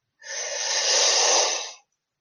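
A person takes a single deep inhale during a breathing exercise, a steady, hissing rush of air lasting about a second and a half, alone and without talk.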